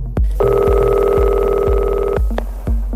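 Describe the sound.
A telephone ringing after a number is dialled: one long, loud, steady buzzing ring that holds for almost two seconds over a regular low thumping beat.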